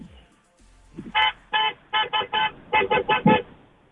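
A car horn toots at a red light on a city avenue in a rapid string of many short, bright honks with an uneven rhythm, fairly loud against quiet traffic.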